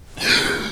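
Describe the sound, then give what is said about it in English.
A man gasps as he wakes suddenly from a dream: one short, breathy inhale that swells quickly and then tapers off, with no words. “That is the sound of a man waking from a dream.”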